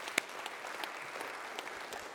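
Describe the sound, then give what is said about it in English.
Applause from a church audience during a sermon, a faint, steady patter of many hands clapping with a few sharper individual claps, with no voices over it. “You should clap on that.”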